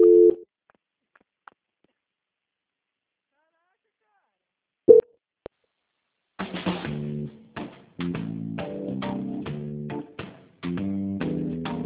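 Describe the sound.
A telephone call transfer tone sounds as two short beeps separated by a long silent gap. People then start talking on the line.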